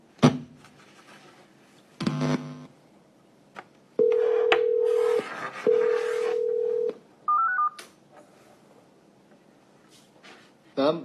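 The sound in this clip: Telephone call tones as a call is placed: two long, steady mid-pitched beeps, then a brief higher double tone, with other short noises before and after.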